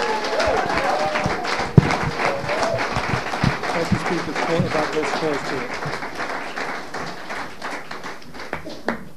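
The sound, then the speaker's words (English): Audience applause for a speaker from Vancouver, Canada, at an addiction recovery meeting: dense, steady clapping that lasts throughout, with voices mixed in underneath. “Och nu en applåd till våran talare Richie från Kanada, Vancouver, Kanada.”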